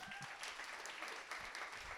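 An audience applauds a participant with steady, continuous clapping from many hands, fairly faint and even in level throughout.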